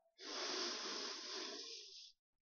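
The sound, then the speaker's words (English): A single long exhale through the mouth during a guided breathing exercise: a steady, airy rush of breath lasting about two seconds, heard alone with no talk. “Now blow through your mouth. One more time. Breathe in.”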